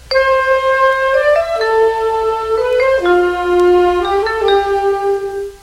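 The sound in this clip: A band introduction played on saxophones and vibraphone: held, harmonized notes moving stepwise through short phrases, with the line sinking lower overall, played alone.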